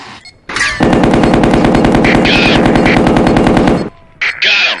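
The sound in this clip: Machine gun fire in a video game: a long, continuous rapid burst lasting over three seconds, then a short pause and a second, brief burst. The shots are loud and dense.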